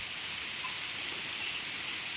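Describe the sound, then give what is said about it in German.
Rain falls as a steady, even hiss. The sound stays constant throughout, with no distinct drops and no voices. “so wie der Regen anfängt sich einzuregnen, werde ich noch mal kurz”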